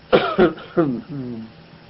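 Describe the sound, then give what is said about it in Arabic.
A person gives a few short, harsh coughs in quick succession, then a brief voiced throat sound. The coughs are moderately loud with clear gaps between them. “دعني أسعل قليلا”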